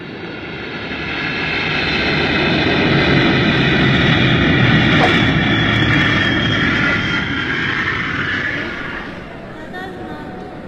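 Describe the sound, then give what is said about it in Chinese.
Aircraft engine roar in the ambience of a large airport, Narita: a loud, broad drone that swells over the first few seconds, holds steady, then fades away toward the end. “这成田机场可真大呀。”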